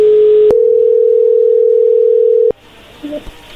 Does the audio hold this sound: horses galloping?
no